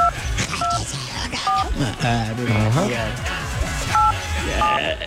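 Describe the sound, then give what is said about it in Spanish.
Phone keypad tones beep a few times in short dual-pitched bursts, spaced unevenly, while people talk over them. “Voy a marcar.”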